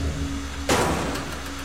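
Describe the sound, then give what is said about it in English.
A single sharp knock on a metal panel by a hazmat-suited figure entering a room covered in plastic sheets, one bright impact that quickly decays over a low, steady hum. “He knocks on a metal panel as he enters.”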